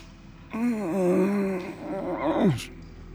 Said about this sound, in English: I cautiously approach the humanoid and give it a few kicks with my foot. There's a groan.